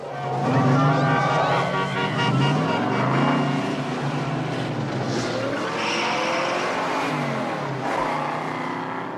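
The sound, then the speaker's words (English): Cars driving off into the darkness, their engines revving loudly with a wavering whine as tires squeal, making a continuous roar that lasts the whole time. “He watches, mouth open, as the cars disappear into the darkness.”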